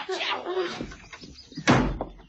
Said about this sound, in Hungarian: Ó, csupa kinyíló becsapódó. Kilincs.